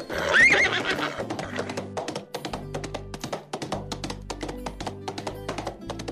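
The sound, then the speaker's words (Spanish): A horse-like unicorn whinnies, then trots fast: an opening neigh followed by many quick, evenly rhythmic hoof clip-clops, without talk. “Este trota muy bien. Con esa velocidad que tiene y ese trote son muy buenos. ¡Qué unicornio tan hermoso!”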